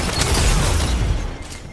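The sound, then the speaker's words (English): Machine gun fire in the Destiny 2 video game: a dense, loud, continuous burst of rapid gunfire with booming low impacts that runs through the whole clip without pause. “That's a machine gun. Don't engage.”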